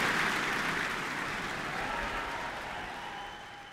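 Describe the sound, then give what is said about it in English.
A concert hall audience at the Michael Fowler Centre applauds the NZSO after a performance. The clapping is broad and fairly soft and gradually tapers off. “The audience from the Michael Fowler Centre really enjoying that one from July 2023.”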